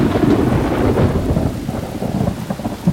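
Thunderstorm with pouring rain, a loud, steady wash of heavy rain over a deep rumble of thunder that swells and eases slightly, with no voices.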